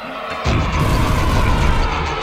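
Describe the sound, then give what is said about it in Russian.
A sudden, loud roaring blast of a cannon shot launching a projectile at night, with a burst of flame. It breaks in after a brief quiet start and rumbles on steadily to the end. “Какой вместе с выстрелом вырвался сноп пламени! Так светло стало! Ночь превратилась в день!”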